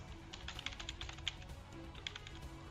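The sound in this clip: Quiet typing on a computer keyboard during a gaming session, a quick, irregular run of many light clicks over a low background hum.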